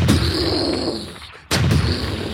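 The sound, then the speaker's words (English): Flintlock rifles and pistols firing in a temple armory: a dense, loud roar of gunfire that dips for a moment before a second sharp blast breaks in and carries on. “And you hear the report of flintlock rifles and pistols.”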